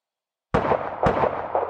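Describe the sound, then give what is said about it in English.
Gunshots fired at car tires ring out as two sharp, loud bangs in quick succession, each followed by a rumbling, ringing tail. “Are they shooting my tires?”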